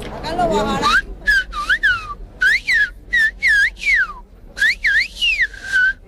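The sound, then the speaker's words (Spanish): A man whistles a greeting in silbo, the Canarian whistled language. After a brief voice at the start, many sharp, high whistled phrases follow in a quick rhythm, each gliding up and down in pitch like speech. “Caballero, ¿estaba usted silbando? Sí. A ver, díganos algo en silbo. Vamos a ver, el silbo canario”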